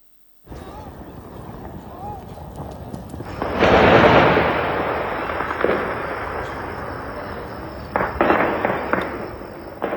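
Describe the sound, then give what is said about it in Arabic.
A huge explosion from an airstrike west of Erbil in Iraqi Kurdistan erupts as a loud, broad roar and then slowly rumbles away. A few sharper cracks follow over constant background noise. “ووثقت مقاطع مصورة لحظة الاستهداف وبينت وقوع انفجار ضخم جراء الغارة في المكان المستهدف بالمنطقة الواقعة غرب أربيل”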